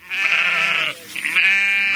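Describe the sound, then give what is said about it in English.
Two long, wavering bleats from one of a flock of 130 ewes on a farm in Pulaski County, Virginia. The loud, nasal calls are separated by a brief pause, with no talking. “He keeps 130 female sheep,”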